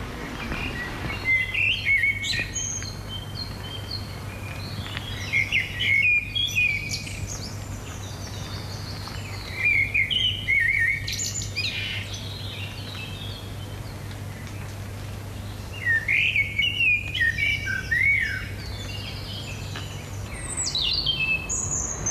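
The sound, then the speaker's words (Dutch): A common blackbird sings in the morning, giving five fluting, warbled phrases separated by pauses of several seconds, heard alone above a steady low hum. “Ah, le chant du merle, c'est certainement un de mes chants préférés.”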